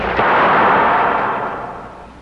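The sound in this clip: A pistol fires a single loud shot at the start, and its ringing tail fades slowly over about two seconds.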